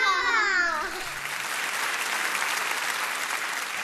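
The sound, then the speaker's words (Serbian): Children's applause breaks out after a brief voice: dense, steady clapping from many young hands that holds at an even level to the end. “Za ovo ćemo da te odmah nagradimo jednim velikim, pravim i iskrenim dečijim aplauzom.”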